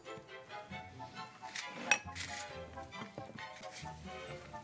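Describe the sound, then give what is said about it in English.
Ingredients are mixed together in a bowl for a casserole, giving light clinks and knocks of a utensil against the bowl, with one sharper clink among them. “once you've got them all in the bowl, it's just so easy. Well worth trying this recipe. And then you want me to just mix it all together?”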